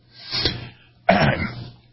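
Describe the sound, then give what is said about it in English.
Someone clears their throat in two rough, raspy bursts. The first builds gradually, and the second starts abruptly and is louder and harsher, with no speech. “Let me clear my throat here.”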